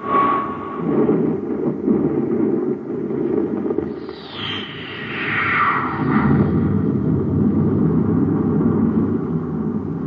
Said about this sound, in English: Fire rockets. Cut repeller ray.